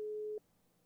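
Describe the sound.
A single short, steady mid-pitched beep of a telephone busy signal on a call that goes unanswered, followed by near silence.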